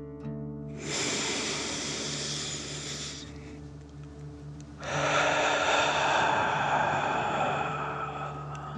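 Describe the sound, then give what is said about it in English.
A slow, deep breath drawn in and then let out during a calming bedtime relaxation for children: a long airy inhale, a short pause, then a longer and fuller exhale, with no talk. “Last one, fill up your chest and belly. Deep breath in and out.”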